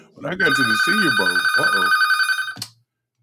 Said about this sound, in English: sorry, that was my bat phone.